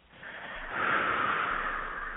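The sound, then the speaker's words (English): One long, deep breath in, a hissing rush of air that builds and holds steady at moderate volume, with no speech. “Take a deep breath”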